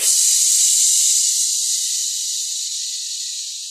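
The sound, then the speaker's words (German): A voice imitates air hissing out of a released valve with a long, steady, breathy hiss that lasts nearly four seconds and slowly fades. “Und dieses Ventil, das ziehe ich jetzt. Und dann macht es...”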